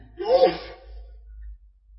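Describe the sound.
A single sneeze bursts out briefly and sharply, then quiet follows with only a low background hum.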